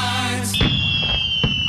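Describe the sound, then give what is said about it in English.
Firework going off: a sustained high whistle that sinks slightly in pitch, with a few sharp pops and crackles under it. “that was the first firework.”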